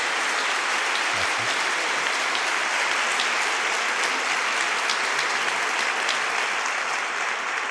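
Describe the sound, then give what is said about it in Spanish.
An audience applauds to welcome a priest arriving for a conference. The crowd's clapping is dense, continuous and evenly loud for several seconds without a break. “Le damos la más cordial bienvenida, padre. Le damos un fuerte aplauso.”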